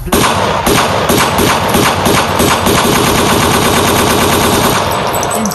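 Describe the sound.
Gunfire sound effect: loud, dense rapid-fire automatic shots with heavy thumping blasts, running without a break for the whole clip.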